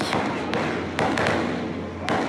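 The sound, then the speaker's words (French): Automatic weapons fire in sharp, irregular bursts during post-election violence in the Kadjeoun quarter of Benin in 2019. A few loud cracks stand out over a steady noisy background. “Des rafales de tirs d'armes automatiques.”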